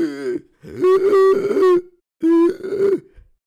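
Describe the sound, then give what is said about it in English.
A voice imitates gasping and struggling for breath after waking at night unable to breathe with acid rising in the throat: a few strained, groaning, throaty bursts with a pause between, moderately loud and with no other sound. “I woke up in the middle of the night, almost completely unable to breathe. I wake up going,”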